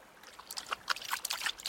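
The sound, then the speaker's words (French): A tired sheepdog laps water from a river, making a quick series of small wet slurping splashes, faint and alone. “C'est le chien de berger fatigué qui, à grands coups de slurp, slurp, slurp, se désaltère à la rivière.”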